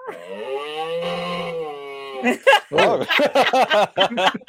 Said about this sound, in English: that was a very sick cat just then. But anyways, that's the sound effect.